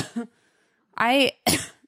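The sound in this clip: Coughing and throat clearing from a tickle in the throat: a few short, rough bursts, one of them a voiced, rasping clear and another a sharp cough, separated by brief quiet gaps.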